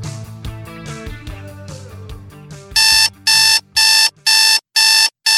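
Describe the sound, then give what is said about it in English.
An alarm clock rings in a string of about six loud, evenly spaced bright electronic bursts, following a few seconds of music. “You know what that sound is? That's your wake-up call.”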